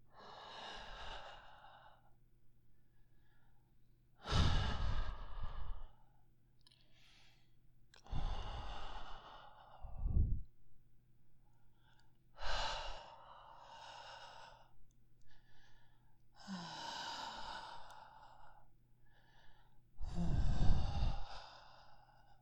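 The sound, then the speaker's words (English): Slow, warm breaths blown out in several long, breathy exhales and sighs, each separated by quiet pauses, soft and close with no other sound around them. “Just let my hot breath wash over your body.”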